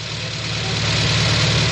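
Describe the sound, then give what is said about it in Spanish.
A car engine running as the car pulls up, in a 1958 setting: a continuous low, rumbling idle with a faint knocking pulse. It is even and unbroken, swelling slightly in loudness, with no voices. “Ah, el coche de doña Armandina.”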